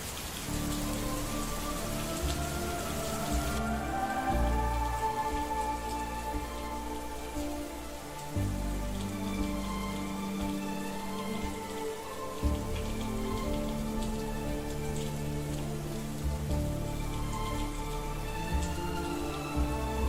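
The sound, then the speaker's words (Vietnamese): Night rain falls over Đà Lạt, a steady dense patter of drops hitting surfaces that stays even and unbroken from start to finish. “kết hợp với cơn mưa đêm của Đà Lạt làm cho bầu không khí trở nên thê lương”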